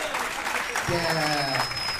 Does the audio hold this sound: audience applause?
yes